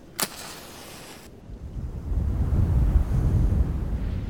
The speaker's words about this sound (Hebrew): היי, ראיתם? רק סיימתי את דבריי, רוח חזקה באה וחיבתה לי את הנר.